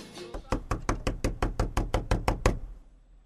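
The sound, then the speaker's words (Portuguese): Knuckles knock on wood in a quick, even series of many sharp, hollow raps with a steady rhythm, fairly loud and alone, then stop. “Tô batendo na madeira”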